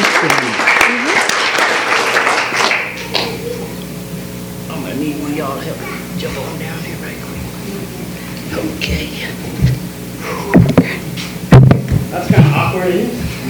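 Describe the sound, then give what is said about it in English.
Audience applause during a church service as a clap offering. Dense, loud clapping fills the first three seconds and then stops abruptly, and a voice talks over quieter background sound. “a clap offering for that right now”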